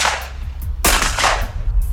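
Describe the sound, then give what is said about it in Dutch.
Shotguns firing at a clay pigeon shooting championship in Nieuw-Pekela: several sharp, loud cracking blasts in close succession, with echoing decay between shots and no talk. “Meer dan 100 schutters probeerden zoveel mogelijk oranje schijfjes uit de lucht te schieten.”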